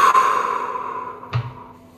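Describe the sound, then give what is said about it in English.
A slow, soft exhale during a guided breathing exercise, an airy breathy rush that gradually fades over about a second, then a quiet tail. “And then we can just slowly breathe out very softly and gently.”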